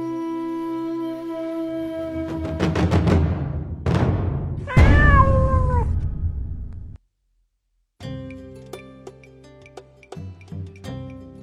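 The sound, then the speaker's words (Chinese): A stray cat meows a few times with wavering, tonal cries, followed by a brief silence and then steady tones with light clicking. “这种不是被人工改造过的，让我们说这都是流浪猫，过去叫野猫。”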